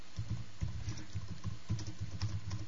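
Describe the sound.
Quiet typing on a computer keyboard while a reply is written, many quick light keystrokes tapping in an uneven, steady run.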